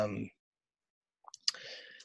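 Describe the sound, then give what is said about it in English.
A dog running into a room, heard as a short burst of quick clicks after a moment of silence, with a voice cut off at the start. “but my dog just ran in the room”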